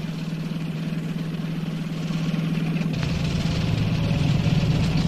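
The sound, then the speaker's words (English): A spacecraft engine warming up as a low, steady idling hum with a rough mechanical rumble that grows somewhat louder and heavier partway through, continuing unbroken to the end. “Recon Vessel 12, begin engine warm-up sequence.”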